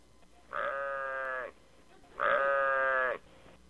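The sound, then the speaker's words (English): A human voice imitates a sheep bleating, giving two drawn-out, nasal "baa" bleats of about a second each with a short pause between them. Both are steady, clearly pitched and fairly loud. “They actually sound different. Sheeps say,”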